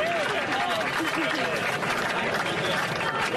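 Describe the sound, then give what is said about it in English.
A crowd applauds and cheers, with clapping mixed with shouting voices, holding a steady, lively level for a few seconds. “And now the crowd realizes what's happened. Yeah. The applause gets louder.”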